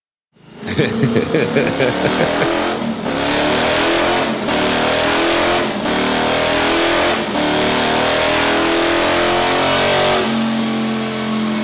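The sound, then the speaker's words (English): Motus motorcycle engine on a dyno pull, fitted with a custom 4-into-2-into-1 exhaust: a loud, sustained roar whose harmonics climb repeatedly, broken by brief dips, before settling into a steadier tone. “I had a hard time finding a good sound clip of the Motus. So this one is actually a dyno pull with a custom 4 into 2 into 1. You guessed it. Exhaust.”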